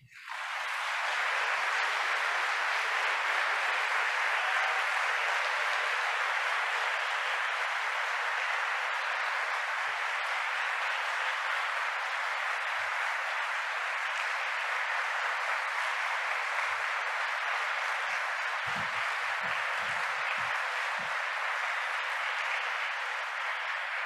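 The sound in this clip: Concert audience applause welcoming performers onto the stage: dense, steady clapping from a large crowd that swells quickly at the start and continues unbroken and fairly loud throughout.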